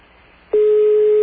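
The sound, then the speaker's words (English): Ringing tone on a telephone line in Kazakhstan: after faint line hiss, a single steady, low electronic tone starts abruptly and holds loud and unbroken to the end. “Actual phone ringing in Alma Atoll, or how you pronounce it, Kazakhstan.”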